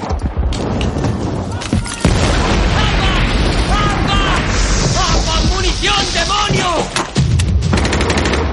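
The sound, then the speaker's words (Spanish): Explosions and heavy gunfire in a World War II film street-battle scene, with loud blasts near the start and again near the end, surrounded by rapid shots, crackling debris and shouting voices. “Otra granada entra en la habitación y Henderson la lanza a la calle.”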